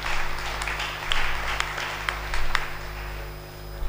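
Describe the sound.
Applause from a church audience acclaiming the Lord after an offering prayer during a French-language service: steady, moderately loud clapping that swells and eases a few times over a low constant hum.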